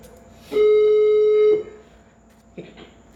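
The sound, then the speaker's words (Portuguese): A telephone ringback tone sounds while a call is placed again to someone whose line dropped: one steady, medium-pitched electronic tone lasting about a second, followed by silence and a faint brief blip. “A Linda caiu, vou ligar aqui pra ela de novo”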